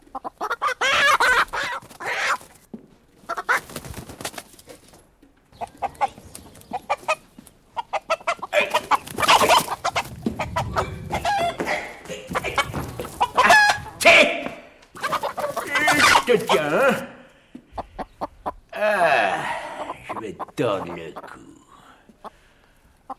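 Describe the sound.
Chickens cluck and a rooster crows among farmyard poultry, a dense run of many overlapping clucks and squawks that stays loud throughout, with people's voices mixed in.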